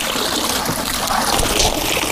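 Water splashes and trickles as soft-shelled turtle hatchlings are scooped out at a breeding farm, a fairly loud, continuous wash of churning water.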